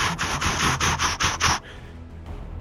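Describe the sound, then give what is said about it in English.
Metal scraping in a rapid series of about seven rasping strokes, harsh and bright, that stop abruptly and give way to a quiet low rumble. “You hear the scraping of metal behind you.”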